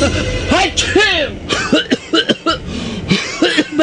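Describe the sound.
Rough, phlegmy coughing from an adult in a radio commercial for a remedy for chesty cough and cold, several loud, throaty hacking bursts mixed with strained vocal groans in an uneven run.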